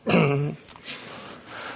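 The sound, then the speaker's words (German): A voiced throat clearing as a group gets ready to speak a sentence together: one loud, low grunt lasting about half a second, followed by quieter rustling noise. “holt einmal tief Luft, einmal räuspern”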